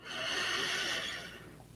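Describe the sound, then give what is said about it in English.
A single deep inhale through the nose during a guided relaxation exercise, a soft airy rush that swells quickly, holds for about a second, then fades away, heard alone and fairly faint. “Let's just start by taking in a deep breath right in.”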